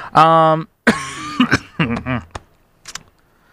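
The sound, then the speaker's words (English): Someone with a pollen allergy coughs in a series of harsh, throaty, partly voiced bursts that come in an irregular run, then taper into a few faint, short coughs. “Pollen is in full swing, and that means that I have been coughing, sneezing the whole nine yards.”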